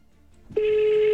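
Telephone ringing: after a brief near-silent stretch, a steady electronic ring tone starts abruptly and holds unbroken to the end.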